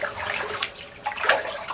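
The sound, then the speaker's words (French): Water splashing as it is poured over the body from small buckets at the showers beside bathing pools before a bath, a continuous hissing wash with a few brief, louder splashes. “On prend deux petits seaux, l'un pour se laver le visage, l'autre pour s'asperger d'eau.”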